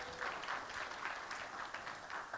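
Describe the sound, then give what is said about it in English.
Faint applause from an audience during a church sermon, as a boy returns to his seat. The clapping forms a soft, continuous patter that stays at a low, even level throughout. “Give him a round of applause, everyone.”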